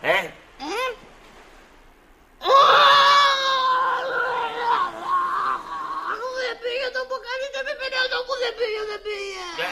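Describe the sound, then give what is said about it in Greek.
Someone crying: two short whimpers, then a loud, high, drawn-out wail breaks into a run of quick, pulsing sobs that waver in pitch. “Γιατί κλαις τώρα, για να σε λυπηθώ?”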